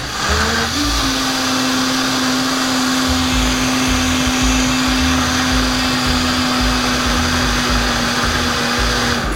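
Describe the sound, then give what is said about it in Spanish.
An electric blender whirs continuously as it blends a thick mixture thinned with added broth. The loud motor holds a steady droning pitch from start to finish. “Le estoy agregando un poquito más de caldo porque está muy espeso. Para que se pueda licuar bien. Vamos a licuar otra vez.”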